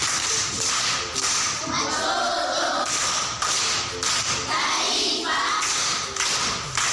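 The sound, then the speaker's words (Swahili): An audience at a primary school gathering in Tanzania claps for a speaker. The rhythmic, patterned group clapping has heavy, thudding beats that repeat steadily and stay loud throughout. “Makofi kwa mjomba.”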